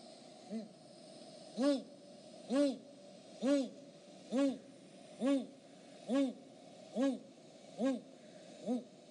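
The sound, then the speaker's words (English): Great gray owl calling on the north shore of Lake Superior in February: a steady series of ten deep, evenly spaced hoots, the first one faint, with each hoot soft and low. “What you heard was the great gray owl's call.”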